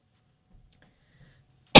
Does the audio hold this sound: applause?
no